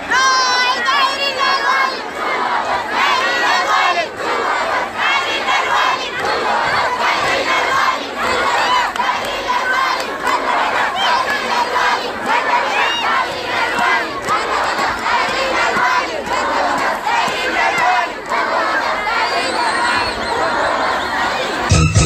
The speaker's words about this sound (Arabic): وردد الطلاب المحتجون هتافات